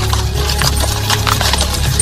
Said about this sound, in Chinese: 又忽然发现那辆马车停了下来